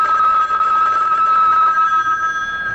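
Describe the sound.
A telephone rings with a steady, high electronic trill that holds without a break from start to end over faint background hiss.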